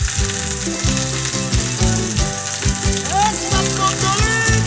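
Lentil burgers fry in a pan with a loud, continuous sizzle that stays strong from start to finish.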